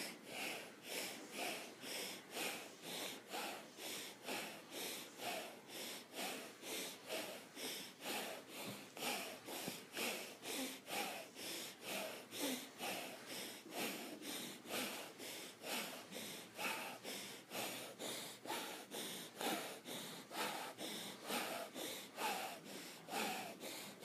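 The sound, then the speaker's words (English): Rasping breaths during a shoulder-lift exercise: many quick, rhythmic breaths repeat at a steady pace of about two per second, with no other sound. “Bring your rasp breath to it and begin.”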